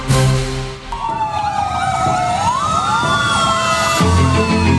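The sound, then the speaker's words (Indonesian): An emergency vehicle siren wails loudly, its tone sliding up and then weaving up and down, over a steady rumble of traffic that continues throughout. “Dengar kendaraan prioritas nggak?”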